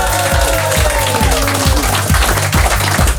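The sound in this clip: Studio audience in Amsterdam applauding and cheering, a dense wash of clapping over a steady, pulsing bass beat.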